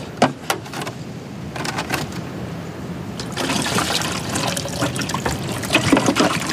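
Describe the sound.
Water is poured in to fill a container, a continuous splashing trickle with a few sharp clicks early on, growing fuller and louder in the second half.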